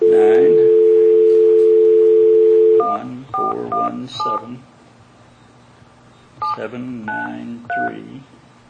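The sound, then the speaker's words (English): Touch-tone telephone dialing: a steady dial tone holds for a few seconds, then a number is keyed in as short electronic beeps in two separate bursts. “Let's see what number I did dial.”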